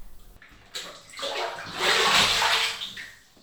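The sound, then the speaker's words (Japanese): Water poured slowly from a hand bucket into a bath, a single long splashing pour that swells to a full gush and then tapers off, with no voices. “手桶でゆっくり丁寧に流していきますからね。”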